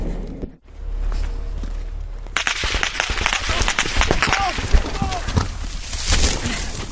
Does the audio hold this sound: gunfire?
yes